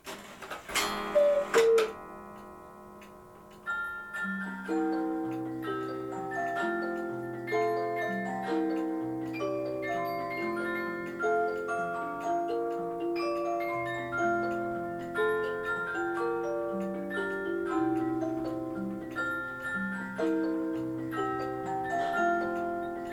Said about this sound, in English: So this is the sound of what was and could still be the world's largest cuckoo clock.